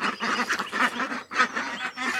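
Ducks and chickens mingle in a duck enclosure, the chickens foraging for duck food. Loud, raspy, honking fowl calls come in a steady overlapping run with no clear gaps.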